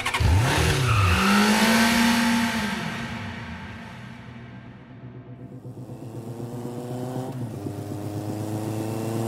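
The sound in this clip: A motorbike engine revs hard and pulls away. Its pitch climbs sharply in the first seconds, then the roar eases and dips before building again as the bike keeps riding.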